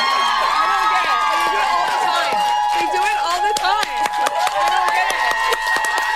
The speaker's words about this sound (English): That's a standing ovation. What's wrong with you people?